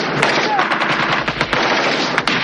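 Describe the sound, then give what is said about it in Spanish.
Enemy machine-gun fire blasts holes in a building's walls. Many loud, rapid shots crackle in dense bursts throughout. “Las armas enemigas abren boquetes en las paredes del edificio.”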